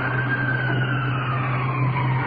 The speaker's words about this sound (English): Checking out the window. Ambulance with iron lung.